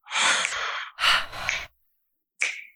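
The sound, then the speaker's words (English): Quick exhales of breath at the start of a breathing exercise: two sustained, breathy rushes of air, then a brief, sharper third puff after a pause. Fairly soft, with no talking. “First, quickly exhale.”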